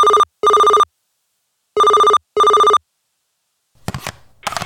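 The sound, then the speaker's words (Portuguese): A telephone rings for an incoming call in two electronic double rings separated by a pause, loud and alone, before a voice starts speaking at the end. “vamos atender uma ligação porque tem um áudio partilha vindo aí”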